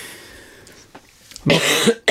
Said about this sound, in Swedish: Förlåt. Nej, det är ingen fara. Hosta på det.